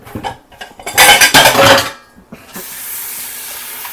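Metallic clattering and scraping as raw chicken drumsticks are moved onto a single baking sheet: a few sharp knocks, then a dense burst of rattling, followed by a softer steady hiss.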